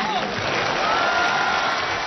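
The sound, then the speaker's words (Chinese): Audience applause opening a crosstalk comedy show: a dense, steady wash of clapping that holds at an even level for the whole two seconds. “感谢大家的掌声鼓励。”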